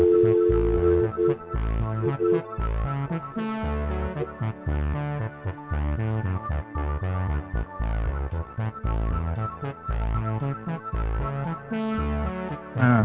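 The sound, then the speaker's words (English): Cheesy, upbeat music plays while a telephone call is dialed. The steady, band-limited tune has a regular beat that runs without a break from start to end, and no one speaks. “Dialing music. That's music. Alright, there we go. Enough with the music. It's kind of cheesy.”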